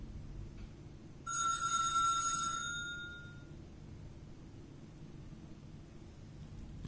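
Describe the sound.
A doorbell rings at the door of a house. It gives a bright, bell-like ringing that lasts about two seconds over faint, steady background hiss.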